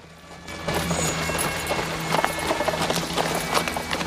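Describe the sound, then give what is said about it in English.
Clip-clop of horse hooves pulling a buggy as it rides up, a steady run of many fairly loud hoofbeats in an even rhythm over a low steady hum. “Gordon rides up with Rita at his side.”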